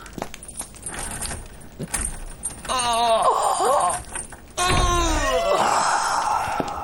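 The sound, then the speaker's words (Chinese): Keys jangle as a jail cell door is unlocked, with metallic rattling followed by groaning, creaking tones that rise and fall in two long stretches. “我给高司令送点吃的，门给我打开。”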